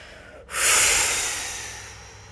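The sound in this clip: Children blow out a breath during a mindfulness breathing exercise. One forceful, airy exhale swells quickly and then fades gradually over about two seconds.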